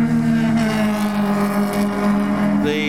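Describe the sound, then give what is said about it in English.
Engine roar of a Holden Astra coupe driving fast past, a loud, steady droning engine note with a rough, gritty texture that shifts abruptly just before the end. “What is that, a Holden Astra Coupe just went sprinting past”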